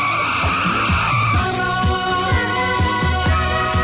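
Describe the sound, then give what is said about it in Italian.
A roaring motorcycle arriving, its engine loud and continuous with a gritty, pulsing growl and rhythmic surges as it revs, heard without voices. “arriva in sella ad una rombante motocicletta.”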